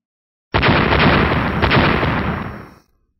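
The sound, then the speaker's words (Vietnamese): An explosion sound effect for a midair blast of white fire in a fantasy battle: one sudden loud onset followed by a sustained, rumbling roar that slowly fades away over about two seconds. “Một hồi âm thanh nổ đùng đoàn vang lên giữa không trung, vô số ngọn lửa màu trắng bắn ra”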